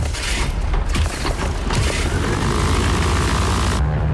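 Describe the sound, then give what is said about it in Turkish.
An aircraft's right engine starting gives a loud, sustained roar with deep rumble and occasional booming bursts, and the bright upper hiss drops away shortly before the end. “Sağ motor çalıştırma. Başla. Başladı.”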